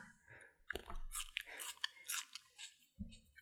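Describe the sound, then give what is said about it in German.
Someone chews raw onion right next to the microphone, producing loud, wet, crunchy bites and chewing. The crunches repeat many times in an uneven rhythm, with no talking. “Ich werde hier kurz eine Zwiebel in der Nähe des Mikros essen.”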